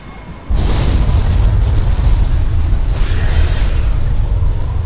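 Loud booming blasts from an M920 Cain gun firing in a video game erupt abruptly after a short quieter lead-in, then continue as a dense, rumbling roar to the end.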